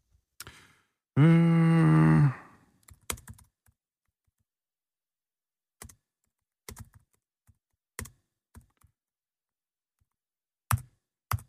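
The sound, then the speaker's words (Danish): Computer keyboard typing while words are entered to test a spell checker: scattered, sparse bursts of crisp key clicks with quiet gaps between them. A short sustained tonal sound comes before the clicks. “Jeg prøvede at sætte ind i en sætning. Jeg kom til at skrive Afrika med småt”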